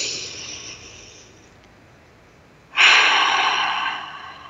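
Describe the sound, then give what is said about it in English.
A deep breath in, taken during a guided pause in a talk about money, grief and loss: a soft breathy hiss fades out, then after a short quiet spell a louder, longer airy rush starts abruptly and slowly tapers. “So let's breathe that in for a moment.”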